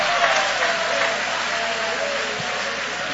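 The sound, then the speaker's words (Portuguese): A church audience applauds during a worship service. The clapping blends into a steady, even wash of sustained applause, with no single claps standing out. “joga a mão para cima então e aplaude a Ele.”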